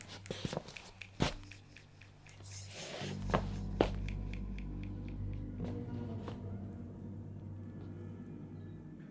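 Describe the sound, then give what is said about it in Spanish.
Footsteps along cemetery paths overgrown with dry grass, mossy stones, dried flowers and twig fragments, heard as a few faint, irregular crunches over a steady low rumble. “Llevamos ya un ratito caminando por los pasillos del Panteón en caminos invadidos de hierbas secas, piedras con musgo, restos de flores secas, veladoras vacías, pedacitos de las ramas de los árboles,”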